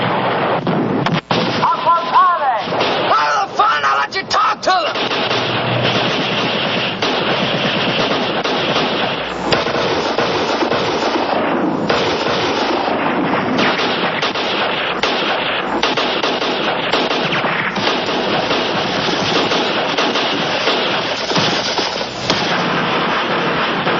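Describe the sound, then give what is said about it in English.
An artillery barrage fires on tanks and reinforced rifle companies in battle. Gunfire and explosions form a dense, continuous roar of loud blasts and bursts across the whole stretch, with voices mixed into the din. “Fire tanks that I can see and what looks like two reinforced rifle companies. Tell old Joe's to get the lead off. 100 short, 50 right, and fire for effect.”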